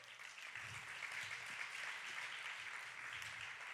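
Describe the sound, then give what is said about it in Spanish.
Applause from a church gathering of young people forms a faint, dense, continuous wash of many hands clapping, staying even in level with no clear breaks. “Denle un aplauso, a ver si se anima.”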